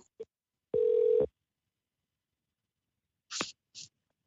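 A single steady electronic telephone tone lasting about half a second as a call is placed, followed by silence and two short noisy bursts.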